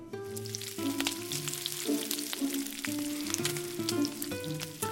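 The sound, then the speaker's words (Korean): Eggs frying in leftover bacon grease in a frying pan: a dense, continuous crackling sizzle with many small pops and spits, steady in loudness throughout, with no talk. “후라이팬에 베이컨을 지지고 난 후 남은 기름에 계란 후라이를 만들면 더욱 고소하고 맛있다고? 오, 이거 근사하잖아? 당장 해봐야겠다.”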